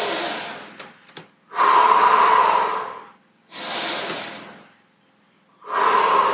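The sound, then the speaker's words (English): Deep, loud breaths taken during a gentle fibromyalgia pain-relief exercise routine. Three long, airy breaths rise and fade with short silent gaps between them; the last one is cut off at the end. “Big inhale.”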